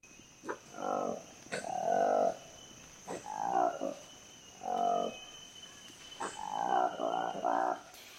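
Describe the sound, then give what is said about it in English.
Calls of a newly discovered black-furred colobus monkey, Colobus congoensis, from forests in the Democratic Republic of Congo: a series of deep, rasping, lowing calls in short bursts separated by brief pauses, fairly quiet and alone. “That is the sound of a new species of monkey discovered by researchers in the forests of the Democratic Republic of Congo.”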